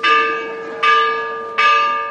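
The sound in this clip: A church bell tolls three slow, evenly spaced strikes. Each strike is loud and bright, and its rich ringing tone fades gradually before the next one sounds.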